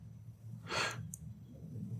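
A person sniffles once, a short, breathy, sharp intake that stands out briefly over a quiet low hum.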